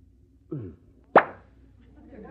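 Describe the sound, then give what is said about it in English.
A single sharp pop rings out as a bottle of brandy is opened, coming after a short voiced sound and then fading quickly into quiet. “did you just open a bottle of brandy?”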